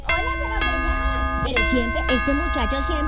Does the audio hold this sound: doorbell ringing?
yes

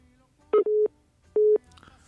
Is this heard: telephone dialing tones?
yes

